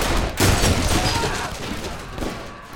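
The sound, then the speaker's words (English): A gunfire volley from soldiers: several loud, sharp shots burst across a rough, continuous crackle of firing, with no voices heard. “The soldiers fired at Whaley's gang, but they were already out of range.”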